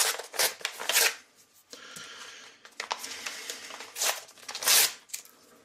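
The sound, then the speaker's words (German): Packages being torn open: a few loud crinkling, ripping bursts of plastic or paper, with quieter rustling and handling noise between them. “Ich reiße die Packungen gleich auf”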